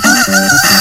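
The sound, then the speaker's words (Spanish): Rooster crowing in a single short, loud, hoarse burst under a second long, harsh and noisy with a wavering tone, heard alone. “Este cante el gallo, cante el gallo.”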